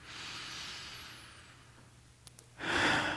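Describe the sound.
Deep breathing: a long, soft, airy breath with steady hiss, followed by a stronger, louder breath near the end, with no talking.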